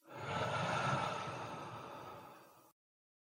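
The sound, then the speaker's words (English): One slow, deep breath: a soft, airy rush that swells quickly and then fades away over about two and a half seconds, heard quietly on its own. “Take a slow, deep breath in through your nose and out through your mouth.”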